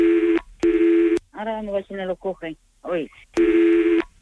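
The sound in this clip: Telephone tones while a call is being transferred: two loud, steady tonal beeps, then a short stretch of voice, then a third tone.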